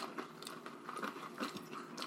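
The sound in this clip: Chewing of a chip dipped in molten raclette cheese, a faint run of soft, irregular crunches and wet mouth sounds with no talk over them.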